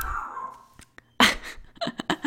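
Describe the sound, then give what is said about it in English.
A dog makes a loud, noisy huffing burst, then a few short, choppy snorting bursts after a quiet stretch. “Oh my God, this dog.”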